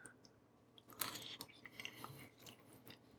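Faint chewing of Cheetos Flamin' Hot Mac and Cheese, soft wet mouth sounds with a few crunchy bites, the loudest around the middle.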